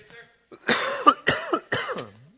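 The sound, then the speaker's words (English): Three harsh coughs come in quick succession, each a loud, rough burst with a throaty edge, preceded by a faint breath. “all of a sudden I know I'm going to have to cough”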